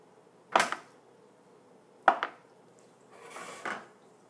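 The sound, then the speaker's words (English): A knife cuts a block of smooth, firm tofu into little cubes: two sharp, quiet knocks on the board, each followed by a quick second tap, then a softer, longer scraping sound. “firm tofu, and I am going to cut it into little blocks. And it's kind of a, a smooth tofu.”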